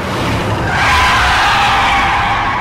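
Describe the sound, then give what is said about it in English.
A car's tires screech as it brakes hard to a halt after driving fast along a highway, a loud, harsh, sustained squeal that holds steady for about two seconds with no voices. “His car screeches to a halt.”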